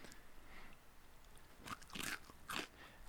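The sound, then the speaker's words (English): Crunching an ice cream cone: after a stretch of near silence, a few quiet, crisp crackling bites and crunches, with no talk. “Kind of sounds like an ice cream cone.”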